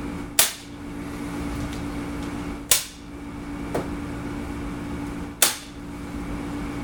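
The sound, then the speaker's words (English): Staple gun driving staples through duct tape: three sharp, loud snaps spaced a couple of seconds apart, with a fainter click between the second and third, over a steady low hum. “Alright, staple down the duct tape in place.”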